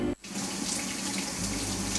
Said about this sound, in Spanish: Y como yo cociné, ¿a quién le toca lavar los platos?